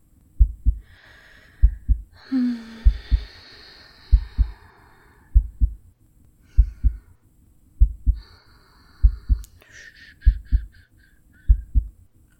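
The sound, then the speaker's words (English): A heartbeat heard through the chest gives about ten slow, evenly spaced low double thuds, each a soft lub-dub about 1.2 seconds apart, with faint higher hissing drifting over some beats. “Come on, and just listen to my heart.”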